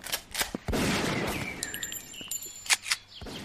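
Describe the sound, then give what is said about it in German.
Gunfire on a military training ground: several sharp, loud reports break through a continuous rumbling din, with irregular gaps between the bursts. “Ultra cringe, wie du hier Handcreme auf dem Truppenübungsplatz verkaufst. Die wollen hier schießen.”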